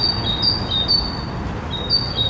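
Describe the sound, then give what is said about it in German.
Bird chirping outside a bedroom window at about half past four in the morning: a string of short, high, even beep-like notes repeats over a steady, noisy background. “piept vor meinem Schlafzimmerfenster. Soll das ein Vogel sein? Versucht dieser Vogel rückwärts einzuparken?”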